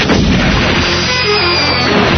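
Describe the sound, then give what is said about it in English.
A cannon firing a shell that carries a secret message: a loud, dense, roaring blast that fills the whole clip at steady strength, with no voices. “Then, place the message into the secret message shell. Load, select target, and fire.”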